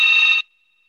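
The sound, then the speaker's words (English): A landline telephone rings in one short, steady electronic burst lasting under half a second, then cuts off abruptly into silence. “it's our phone. Yeah, it's our phone. I'll get it. I can't get that. World attacks. I haven't had a landline in about 10 years.”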